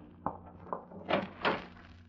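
A closet door is opened: a few faint clunks and soft thumps, then two slightly fuller rustling knocks, all quiet against a low background.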